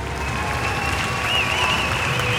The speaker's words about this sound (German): Ja, ziemlich langer Applaus.